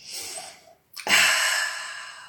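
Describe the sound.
A deep inhalation through the nose during a yoga relaxation exercise: soft breath noise, a brief silent pause, then a strong, airy, sustained inhale that stays loud to the end.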